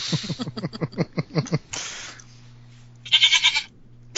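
Goat bleating in a rapid stuttering run of many quick pulses, then after a short rough noise and a pause a second, brighter bleat; no talk accompanies it.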